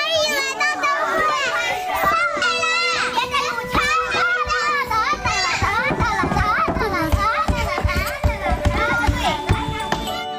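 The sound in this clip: Children play and chatter in a courtyard: a dense, lively tangle of high, overlapping young voices with squeals and calls, loud and continuous throughout.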